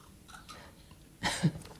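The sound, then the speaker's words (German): Someone takes a sip of a drink, a single quiet slurping burst followed by a soft gulp, with little else around it. “Ich würde jetzt gerade mal einen Schluck trinken.”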